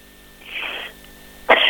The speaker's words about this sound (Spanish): Perdón, me dio una tos.